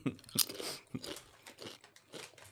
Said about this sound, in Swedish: Ja, det är såna här lantchips och jag tror att det bara är saltsmak. Nu ska vi höra. De var jättekrispiga.